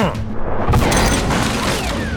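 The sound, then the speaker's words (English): A chunk of concrete is thrown and strikes a machine, landing as a dull, booming impact within a dense wash of continuous rumbling mechanical noise. “I pick up a chunk of concrete, and as the machine turns in my direction, I let fly.”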